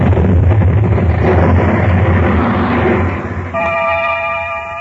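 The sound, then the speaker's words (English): A dramatized explosion sound effect: a loud, sustained rumbling roar that fades slightly before giving way to a steady, clear tone. “an investigation into the cause of the explosion was conducted”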